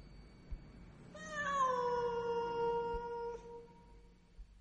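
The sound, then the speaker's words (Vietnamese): A cat sitting in a yard gives one long, mournful meow, a drawn-out wailing cry that sags slightly in pitch and stays fairly faint over a low background hiss. “con mèo vẫn ngồi ở sân, ngửa mặt, đôi mắt xanh lè lè nhìn lên, mà kêu lên mấy tiếng ai oán.”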